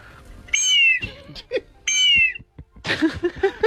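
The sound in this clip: A bird-call whistle built to imitate a condor blows two shrill, high blasts, each held about half a second and sliding slightly downward in pitch, separated by a brief pause and followed by other shorter sounds.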